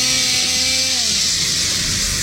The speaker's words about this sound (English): The old chainsaw not starting?